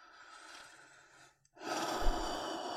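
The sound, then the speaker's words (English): Deep breathing during a guided breathing exercise: one long, airy breath, a brief silent pause, then a second, louder and fuller breath with a rushing, breathy texture, heard alone without talk. “So whatever that place is in your life, let's breathe into that place.”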